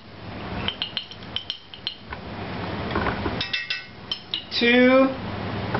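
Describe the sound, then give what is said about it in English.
Spoon clinking against a dish as ground cinnamon is measured into a mixture with dark rum, with irregular sharp metallic taps and light scrapes, a denser cluster of clinks near the end. “Then we put 2 tablespoons of the ground cinnamon.”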